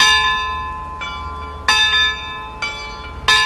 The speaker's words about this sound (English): She likes the clock chimes. Those bells are activated by clockwork.